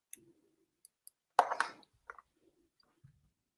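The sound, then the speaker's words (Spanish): Faint plastic clicks as a microSD card is pulled out of one device and pushed into another: a few isolated light ticks, a short cluster of snapping clicks, then a couple more soft ticks. “Voy a extraer aquí, pulsar. Extraigo la SD. La introduzco en Colcar.”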